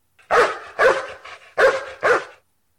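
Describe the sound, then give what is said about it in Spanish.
A dog barks four times in two pairs, each bark loud and sharp with a short gap between, and there is nothing else in the background. “¿Qué sentido uso para escuchar ladrar al perro?”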